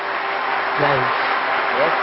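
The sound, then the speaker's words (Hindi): An audience applauds with steady, dense clapping throughout, and a voice is briefly faintly audible beneath it. “जोर से तालियां बजाइए इनके लिए.”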